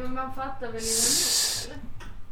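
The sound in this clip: A microphone is handled and moved around, giving a broad rustling hiss that lasts under a second, with brief voice sounds before and after it.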